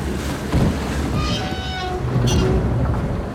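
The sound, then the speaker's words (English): A motorboat's engine rumbles as the throttle is pushed forward and the boat pulls away from a swimmer. A loud, steady low drone mixes with gusty wind noise throughout. “Gabe pushes forward the throttle and the boat moves away from Valentina.”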